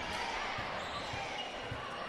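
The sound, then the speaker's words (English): Basketball being dribbled during a girls' high school game, Handley versus Talladega: a few evenly spaced, low thuds of the ball on the floor, heard under ongoing talk. “Gales has a dribble.”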